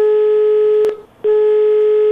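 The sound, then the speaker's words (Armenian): A telephone call is dialed live on air, with a steady, loud line tone holding one pitch. A click breaks it briefly, a short silent gap follows, and the same tone resumes. “Հիմա փորձենք հենց ուղիղ եթերում զանգահարել”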